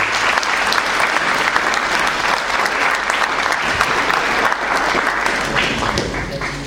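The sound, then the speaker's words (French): An audience gives a sustained ovation for retirees. Thick, continuous applause keeps a loud, even level, with scattered sharper claps standing out from the mass. “Je veux une petite ovation pour ce qu'on s'est fait.”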